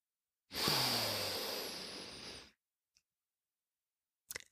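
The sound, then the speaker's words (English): One long, deep inhale during a relaxation exercise: a breathy hiss swells quickly, then tapers off over about two seconds. Near-silence follows, broken by a faint click and a brief soft burst at the end. “Take a moment to inhale”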